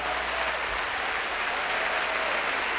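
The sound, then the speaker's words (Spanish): Concert audience applause, a steady burst of clapping that stays even and fairly loud for about three seconds with no talking over it. “denle su mejor aplauso al único artista que va a hacer algo esta noche por ti.”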